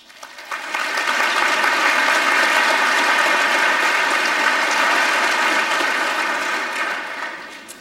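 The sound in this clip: An audience applauding to welcome a woman speaker. Dense, steady clapping swells within the first second, holds evenly loud, then tapers off at the end.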